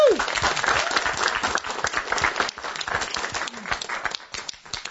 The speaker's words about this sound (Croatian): Jedan aplauz